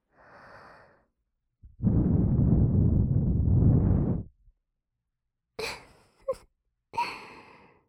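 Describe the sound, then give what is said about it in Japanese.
ASMR breath blown into the ear: a soft puff, then one long, loud, rushing blow lasting a couple of seconds, followed after a pause by a few short breathy bursts, with no talk. “びっくりさせてしまってごめんなさい。ついつい可愛らしいお耳が見えてしまったものなので、お耳に息を吹きかけたとき、”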